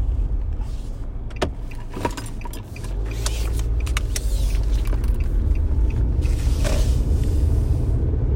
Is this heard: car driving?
yes

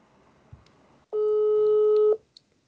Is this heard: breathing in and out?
no

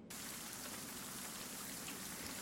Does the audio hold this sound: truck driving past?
no

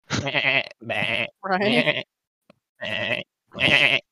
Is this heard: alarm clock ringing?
no

